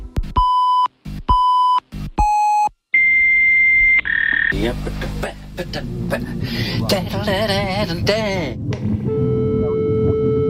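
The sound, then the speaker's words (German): Computer alert beeps: three short, bright electronic tones in even succession, then a longer, higher steady tone, after which people talk over a faint background hum. “Da meldet er sich wieder. Das heißt, wenn dieses Geräusch ertönt, dann will der Computer, dass man sich mit ihm befasst.”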